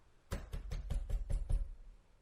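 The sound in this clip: Urgent, repeated pounding on a door, a rapid, evenly spaced run of hard, fairly quiet thuds lasting about a second and a half before falling silent.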